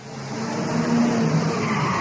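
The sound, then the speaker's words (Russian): Car brakes screech on a quiet street, a sustained, harsh skidding squeal with a faint tonal whine running through it. It holds steady and fairly loud for about two seconds, with no voices. “Раздался скрип тормозов, и все стихло.”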